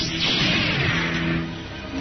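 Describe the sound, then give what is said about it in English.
A Star Wars blaster shot effect flares in a kitchen scene: a dense, crackling burst with a descending swoosh that rumbles on before easing off. “The light of a blaster shot flared, illuminating the kitchen like a bolt of lightning.”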